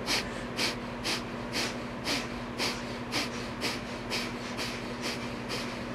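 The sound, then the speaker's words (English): Breath of fire, a rapid, rhythmic inhale and exhale through the nose with the navel pulsing, making many quick, even, breathy puffs at a steady pace over a low constant hum. “breath of fire is another one of our favorite breathing techniques. And this is the fundamental breath work in Kundalini Yoga. It's a rapid inhale and exhale through the nose. And we pulse the navel with the breath. It sounds like this.”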